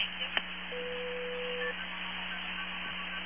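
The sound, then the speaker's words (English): A single steady telephone signalling tone from the old AT&T multi-frequency system, held for about a second over a constant low line hum, with a brief click just before it. “Now, you hear that? Yeah, those are MF tones. And That was the old AT&T system.”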